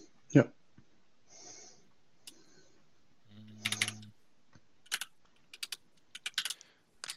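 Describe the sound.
Typing on a computer keyboard during a meeting: scattered bursts of light, sharp key clicks, fairly quiet, with a few brief other noises in between and clustered tapping toward the end.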